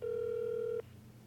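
An outgoing phone call rings unanswered: a single steady, moderately low ringback tone lasts just under a second and then cuts off, leaving a faint low hum.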